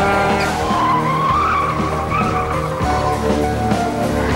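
Tires squeal and skid as a car swerves hard during a high-speed chase, a loud, continuous screech with a wavering tonal whine over a low engine roar.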